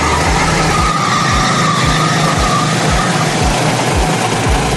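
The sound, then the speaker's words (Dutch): Go-kart engines race around the Silverstone circuit, a steady, dense mechanical drone with low rhythmic pulsing beneath it, loud and continuous throughout with no voices. “Op het circuit van Silverstone nam hij het op tegen 100 mensen in een kart.”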